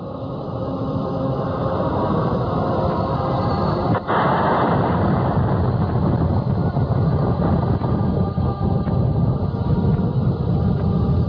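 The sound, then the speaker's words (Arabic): Rocket launch from a mountain during shelling, a continuous heavy roaring rumble that fills the whole stretch, with one sharp crack partway through. “أطلاق صاروخ من الجبل.”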